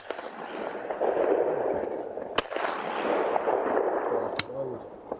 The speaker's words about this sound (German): Wir hatten heute einen wunderschönen Jagdtag auf Tontauben hier in Liebenau auf dem Schießstand der Landesjägerschaft Niedersachsen